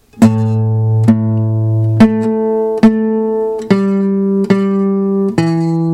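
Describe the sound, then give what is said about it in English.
Slow guitar riff on the low strings, fingered across the fourth and fifth strings: seven evenly spaced plucked notes, each ringing out before the next, with the pitch stepping higher over the course of the riff. “So the whole riff sounds like this, super slow.”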